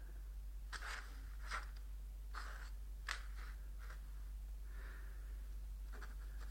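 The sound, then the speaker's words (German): A pen scratches faintly as a lily symbol is drawn. Several short, separate strokes come with pauses between them, over a low, steady hum. “Heute war die Vorstellung für den König. Ihm zu Ehren zeichne ich die Lilie auf.”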